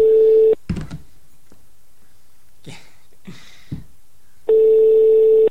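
Telephone call ringing on the line: two steady, buzzing ring tones, one at the start and one at the end, with a few soft clicks and knocks in the quiet gap between them.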